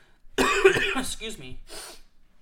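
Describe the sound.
A cough from dust in the throat. One harsh, loud burst is followed by a few shorter throat-clearing rasps, ending with a faint breath.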